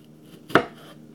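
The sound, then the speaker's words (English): A knife chopping tomatoes in a home kitchen gives one sharp, crisp chop that stands alone against a faint, quiet background. “Right now, I'm chopping down the tomatoes.”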